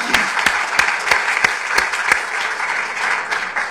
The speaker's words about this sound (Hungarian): Give her a hand, come on. Tapsoljuk meg.